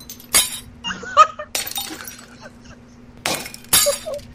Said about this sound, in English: I gotta turn the volume up on the mirror breaking machine.